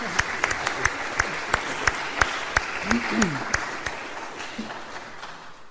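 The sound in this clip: Short warm-up applause from an audience welcoming a guest speaker: scattered, sparse claps ringing out over a low crowd murmur, with some talk in the background.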